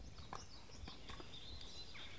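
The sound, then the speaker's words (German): Faint clip-clop of horses' hooves as the animals walk along a trail, a few irregular, soft strikes spread over a quiet outdoor background with no talking. “Ich bin mit meinen Pferden auf dem Westweg unterwegs”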